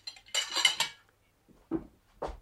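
A plate shoved back across a dining table, a bright clatter of crockery and rattling cutlery lasting under a second, then a short pause and two duller, lower knocks.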